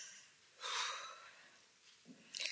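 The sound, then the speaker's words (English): A really deep breath drawn in, a broad, airy rush of air lasting about half a second, followed after a quiet pause by softer, shorter breathy sounds. “just take a really deep breath”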